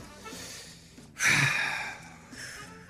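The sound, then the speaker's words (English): One deep breath drawn during a trivia game: a single airy rush of breath that swells quickly and fades over about half a second against faint background noise. “Everybody take a breath here.”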